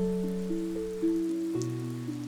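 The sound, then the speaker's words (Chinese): Gentle falling rain makes a soft, even hiss that runs throughout beneath held, calm musical tones shifting slowly in pitch. “跟着我的声音，倾听温柔、平和、宁静的落雨声。”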